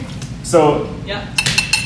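A cocktail shaker's metal tin and glass knock together during a bartending lesson, giving a few sharp, bright clinks and knocks in quick succession.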